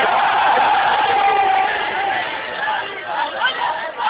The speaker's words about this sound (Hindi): दोनों हाथ बुलंद करके पूरी ताकत से नारा हैदरी।